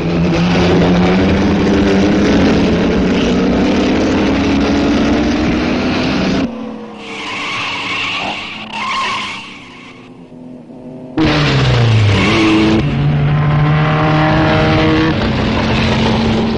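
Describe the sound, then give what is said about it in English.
Sunbeam and Fiat racing cars roar around a track, loud engines with shifting pitch that drop to a quieter passage midway before the full roar returns. “As expected, a Sunbeam takes the lead. They are the fastest cars here today.”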